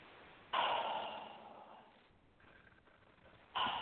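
A deep breath during a guided breathing exercise: a long, breathy rush that slowly fades, followed by a quieter stretch before another breath begins.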